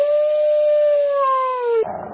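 A single dog howl sound effect: one sustained, clear tonal wail that holds a steady pitch, sags slightly lower, then cuts off abruptly into a short burst of rougher noise.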